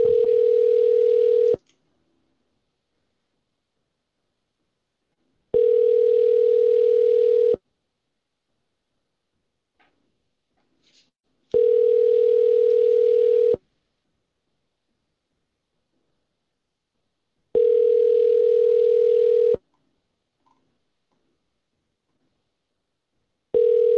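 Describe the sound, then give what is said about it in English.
A telephone ringing tone sounds while a number is being called. There are five steady, same-pitched tone bursts at even intervals with silence between them, and the last burst is cut off. “I'm calling a number. Don't know what it is.”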